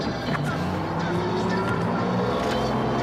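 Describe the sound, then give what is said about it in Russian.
Engine of a bus pulling away, a steady, droning rumble with a low hum and a broad noisy wash that holds at an even level. “Автобус поехал.”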